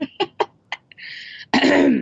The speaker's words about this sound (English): So whenever you're ready, please clear your throat dramatically and begin.